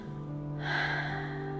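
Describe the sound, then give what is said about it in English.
A voice imitates very slow breathing: after a short quiet pause comes one long, soft, airy breath that holds steady, over a constant low hum. “And every night they would see how slow they could breathe, see who could be slower. They'd go. Dipey would go.”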